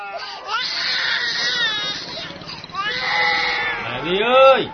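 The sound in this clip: A child cries at home, a loud, wavering wail with shifting pitch that swells into a strong rising and falling cry near the end, with a talking voice mixed in.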